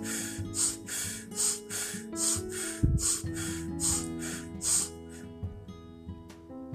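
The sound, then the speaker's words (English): Rapid, forceful breathing, in through the nose and out through the mouth, comes as many sharp, regular breath bursts over soft sustained musical tones. “rapidly breathing in and out very assertively. And you can do this 5 to 7 times, in through the nose and out of the mouth.”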